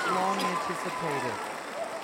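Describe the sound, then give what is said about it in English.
Audience applause greeting three guests, a steady wash of clapping that holds for about two seconds while voices call out over it. “The crowd is going wild for you.”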